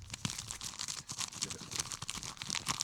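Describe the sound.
Ripping open a pack of 1991 baseball cards: faint, continuous crinkling of the wrapper broken by sharper tearing bursts. No talking is heard.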